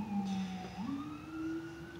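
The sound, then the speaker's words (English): Emergency vehicle siren wailing alone: a steady electronic tone that slides up in pitch partway through and then holds at the higher note, loud and continuous throughout. “Excuse the siren.”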